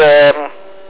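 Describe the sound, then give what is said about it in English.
A pure sine wave power inverter gives off a steady electrical hum with a rich harmonic buzz. The hum is loud at first, then drops to a softer, level drone after a brief shift. “that pure sine wave inverter on now, and seems to be working beautifully.”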